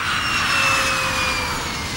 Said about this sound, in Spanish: Ursula von der Leyen, presidenta de la Comisión Europea, viaja en avión.